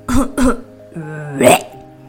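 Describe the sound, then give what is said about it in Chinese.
A storyteller voices a fire-breathing dragon coughing, with two short, sharp coughs followed by a longer, strained voiced hack. “喉咙好痒，有点想吐。”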